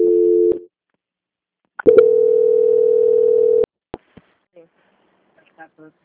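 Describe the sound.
Telephone line tones while a call is being transferred: a short flat tone, a pause of over a second, then a longer steady tone of nearly two seconds. A few faint clicks follow.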